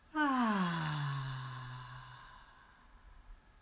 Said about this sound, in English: Breathe in and out.